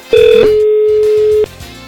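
Telephone line tones sound after a button press on a studio phone line: a brief tone shifts into a steady tone that holds for about a second, over a low background.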